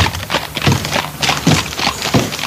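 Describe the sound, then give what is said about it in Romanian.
A horse-drawn cart arriving at a manor courtyard: the horse's hooves clop in a steady run of many dull thuds, with a rumble and rattle from the cart underneath. “Domnul, este o căruță străină. Trebuie să mă duc să-i desham căi.”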